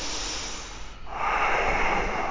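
Deep yoga breath during a guided flow, a soft airy inhale swelling into a louder, fuller exhale that stays steady through the second half.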